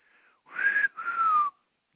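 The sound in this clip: A person whistles two sustained notes in a row, the second one gliding slightly downward, clear and alone.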